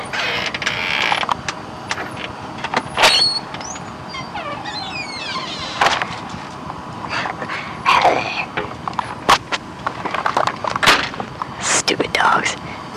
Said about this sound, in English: And, how's that? That's the dog barking. The dog has apparently stumbled upon my secret communique with Clay Pigeon.